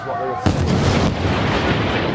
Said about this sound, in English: Massive airstrike now right in front of me, probably two or three kilometres away from where I am in Gaza City.